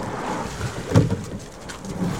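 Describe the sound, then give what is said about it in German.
Water swishes around a boat rowed by four people at a brisk pace with wind from behind, a soft, noisy wash with wind rumble and a couple of brief surges where strokes pull through. “So, wir sind jetzt hier offiziell gestartet. Jetzt rudern alle vier. Wir haben ein ordentliches Tempo drauf.”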